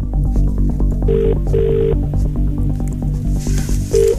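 A telephone rings as a call is placed, with a mid-pitched double ring followed by the start of another ring, all over steady background music.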